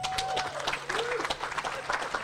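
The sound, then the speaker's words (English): Audience applause at a live comedy event as a comedian is welcomed to the stage: dense, steady clapping that fills the whole clip at an even level without pause. “Big round of applause, please, for Geraldine Hickey.”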